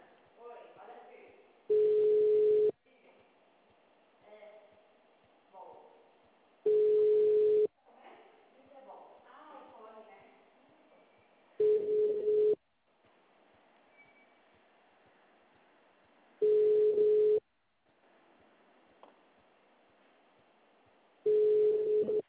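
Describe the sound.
Telephone tone after a dropped call: five steady beeps spaced roughly five seconds apart, each held about a second, with a quiet voice talking in the gaps between them.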